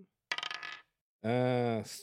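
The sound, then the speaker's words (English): A physical die tossed onto a table during a tabletop role-playing game, giving a quick burst of sharp, rattling clicks as it bounces and settles in about half a second. “if D&D Beyond fucks me, well, I'm going to do a real dice. Get a real baby dice. You're going to get an 11 on this real dice.”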